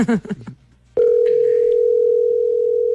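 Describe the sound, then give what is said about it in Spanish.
Telephone dial tone while a call is being dialled: after a brief voice, a steady, continuous mid-pitched tone sounds without a break, with faint small clicks in it. “Empiezo a marcar, ahí va a sonar.”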